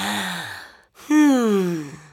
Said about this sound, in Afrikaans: Haal diep asem.